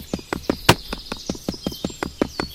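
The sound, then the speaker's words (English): Footsteps of a video game character walking along a street: many evenly spaced, crisp clopping taps at a brisk, steady rhythm, with a faint high tone running beneath them. “I'm just walking on this street here.”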